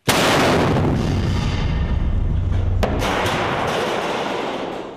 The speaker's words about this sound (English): The Syrian army is on the lookout here for any insurgent movement. And whenever a movement is detected, the artillery is called in.